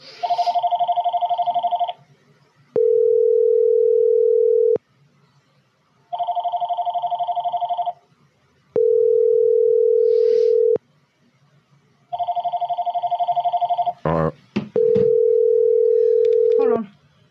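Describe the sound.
Telephone line tones during a Halloween prank call: chord-like electronic bursts alternate with a steady, lower, pure hum, three cycles of each in an even repeating pattern, with a short crackle of noise near the end.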